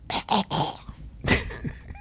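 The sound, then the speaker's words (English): Hawking and throat clearing to bring up phlegm: several harsh, rasping bursts in quick succession, followed after a brief pause by another rough, gurgling clearing. “You want me to keep hawking stuff?”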